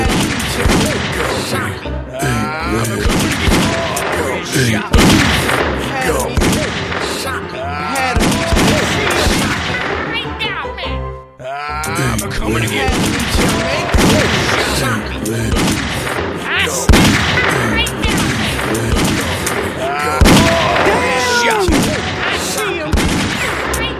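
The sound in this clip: Video game gunfire: rapid, dense volleys of shots and crashing impacts run almost without pause, mixed with people shouting over the shooting.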